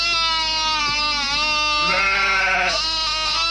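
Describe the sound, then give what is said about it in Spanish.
Sheep bleating loudly and continuously, a strong, wavering nasal cry that fills the whole clip without a break and swells in the middle before easing off. “Malditos animales. ¡Oh, Dios mío! A las ovejas les pasa algo.”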